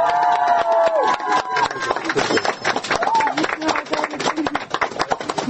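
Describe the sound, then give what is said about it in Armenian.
People clap for a low-income family receiving a new apartment, with many sharp, irregular claps running through the whole stretch as someone talks over them. “Այդ ծափահարությունը”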